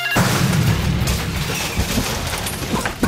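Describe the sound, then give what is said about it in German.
An explosive charge detonating, set off by a noise-triggered anti-intruder alarm device; a sharp boom opens the sound, followed by a loud, sustained crackling rumble that slowly fades. “Schon beim kleinsten Geräusch wird automatisch ein Sprengsatz gezündet und...”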